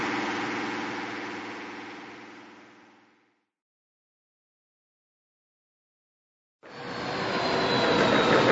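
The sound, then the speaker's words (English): Engine roar of a fictional airspeeder swooping down into a small hangar: a steady loud whine fades away to silence, then after a pause of a few seconds the engine noise returns abruptly and builds strongly. No voices. “swooped the airspeeder down and brought it into a small hangar”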